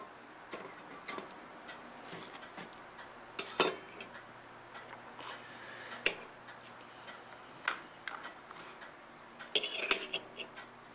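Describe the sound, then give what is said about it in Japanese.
Oribe copper glaze for Mino ware pottery is stirred and mixed, with scattered faint clinks and taps of metal against a vessel over a low, steady hiss. “織部独特の釉薬を調合します”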